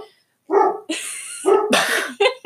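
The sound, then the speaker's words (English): A dog barks in several sharp, loud bursts with short gaps between them, with no talk around them. “You're going to get lots of bits of Tucker because that's just who he is. That's my dog.”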